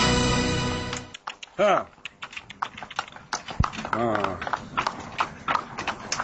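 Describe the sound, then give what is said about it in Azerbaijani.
Horse hooves clip-clopping on a village road in Masallı as a horse pulls a cart carrying timber: many irregular hollow clops, with other sounds mixed in. “At, çox yaxşı heyvandır.”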